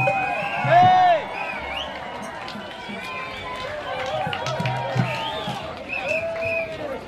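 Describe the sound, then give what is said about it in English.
A crowd at Mardi Gras 2006 sends up a mix of cheering and babble, with voices talking over the general noise and a brief louder swell near the start. “Hey, welcome Mardi Gras 2006. Yay! Anyway, it's a great crowd and thank you so much for coming.”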